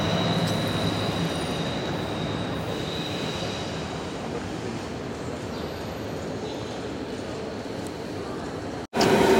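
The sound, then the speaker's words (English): A train approaches with a steady, loud rumble of wheels and rail noise that carries a faint squeal, holding constant for several seconds before a brief dip and a louder surge at the end. “there's the first train approaching.”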